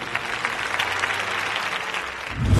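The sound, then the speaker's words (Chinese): An audience at a Spring Festival gala claps for performers after a singing act. The applause is dense and continuous at a moderate level, with many overlapping hand claps and no speech over them. “我们再一次把掌声送给他们”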